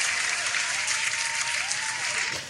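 A recorded audience applause sound effect, played as a gag, gives steady, dense clapping from start to finish and tapers off slightly at the very end.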